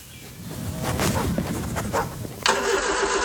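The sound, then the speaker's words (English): A ute engine starts, with a few seconds of rough, uneven cranking that rises into a louder, steadier burst as it catches near the end. “Mate, your ute's been making that noise since Easter, and the trailer's not far behind.”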